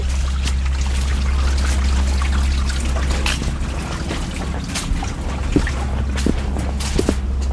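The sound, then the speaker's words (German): Small brook trickling steadily beside a foggy walking path, a continuous bright watery babble with a few soft splashes, heard alone without talk. “Ah, genau, jetzt laufen wir so ein Bächli noch.”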